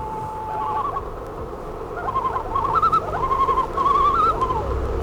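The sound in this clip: Calls of a swimming and diving, fish-eating bird: wavering, quavering tonal cries that grow louder and more frequent toward the end, over a steady low background hum.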